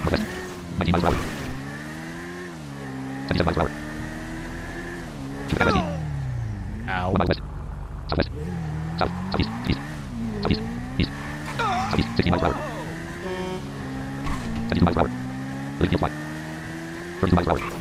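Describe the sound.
Motorbike engine revving in a video game: a buzzing drone with stacked harmonics that repeatedly climbs and drops as the throttle changes, broken by many sharp clicks and knocks.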